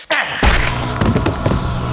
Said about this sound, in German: Der Waffenlauf der Magnum traf mich hart hinter dem Ohr.